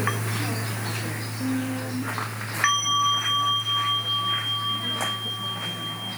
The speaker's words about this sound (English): Let's end with the sound of the bell, and I'm practicing with the bell